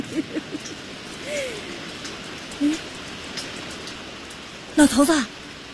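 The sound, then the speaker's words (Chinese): Steady rain falls with a soft, even hiss that runs through the whole passage, while brief voice sounds break in over it near the middle and again toward the end. “哎呀，老头子下雨了，下雨了。”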